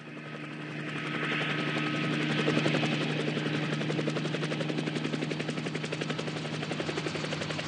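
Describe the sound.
An aircraft coming in to land at a golf course, heard as a rapid, steady chopping beat over a buzzing drone that swells, then holds loud and even throughout.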